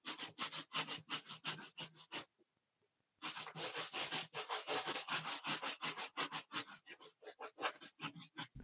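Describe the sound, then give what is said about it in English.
Rubbing an inflated balloon against head hair makes a rapid series of scratchy, swishing strokes in a steady rhythm. A short burst stops for about a second, then a longer run of many strokes follows with no talk. “just rubbing this on my head hair now”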